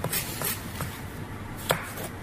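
A knife dices food on a chopping board, giving several crisp, irregularly spaced taps over a steady background hiss. The sharpest strike falls near the end.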